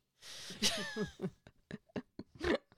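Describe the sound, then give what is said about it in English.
A person with a very congested, sinusy nose gives a faint, sharp nasal snort. A few short, breathy bursts follow. “Oh, I did a snort.”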